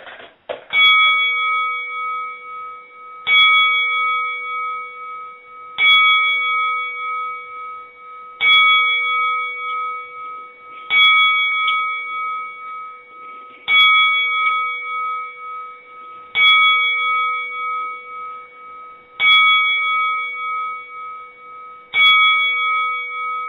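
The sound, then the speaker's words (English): Bell strikes ring out for a ten bell salute honouring a boxer, each clear metallic tone decaying before the next, evenly spaced roughly two and a half seconds apart in a slow, solemn series with no talk. “I'd like a few moments of silence for a ten bell salute at this time.”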